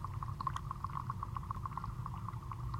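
Bubbling water from plant respiration in a pond, picked up live: a steady run of small, evenly spaced pops rides over a continuous low, rumbling wash, holding an even level throughout.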